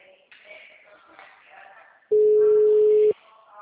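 A phone call's ringing tone sounds once as a steady, loud, mid-pitched beep lasting about a second. It follows a quieter stretch of muffled sound, and the call is later forwarded to voicemail.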